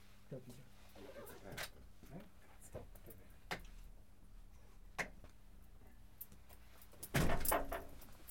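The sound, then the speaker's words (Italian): A door being opened: a few faint clicks and knocks over quiet hiss, then a short, louder rattling burst near the end. “Apro la porta.”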